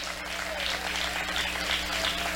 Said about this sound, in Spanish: Vamos, dele ese aplauso a ese Dios maravilloso.